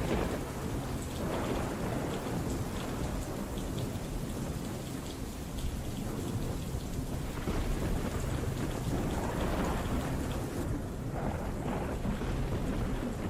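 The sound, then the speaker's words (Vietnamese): Thunder rumbles low and heavy through steady, loud rain falling throughout a thunderstorm, the deep roll blending into a continuous wash of downpour with no voices. “Trên bầu trời loáng thoáng vang lên tiếng sấm động đến đình tai nhức óc.”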